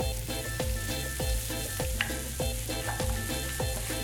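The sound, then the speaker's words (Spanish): Potatoes and sweet potatoes fry in olive oil from Montuenga de Soria, giving a dense, steady sizzle and crackle that continues without a break. “Con unas buenas patatas y unos buenos boniatos hechos en aceite de oliva de montuenga de Soria.”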